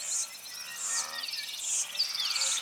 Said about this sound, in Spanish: El canto de los insectos produce una gran variedad sonora.